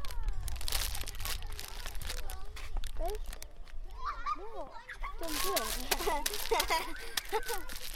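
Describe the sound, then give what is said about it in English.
Crackly, rustling bursts as a crisp packet is crinkled, heard beneath lively chatter from children playing around it. “Popcorn. It looks like popcorn. Crunchy. It's a crisp packet.”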